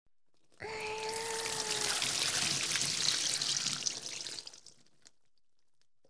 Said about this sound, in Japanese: はい、ジャバーって流しちゃいますからね。ちゃんと流しておかないと後で頭皮のトラブルになっちゃいますよ。